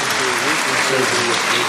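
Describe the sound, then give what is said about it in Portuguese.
Loud round of applause from an audience at a stage show, a thick continuous clatter of clapping with voices sounding over it. “Salve de palmas.”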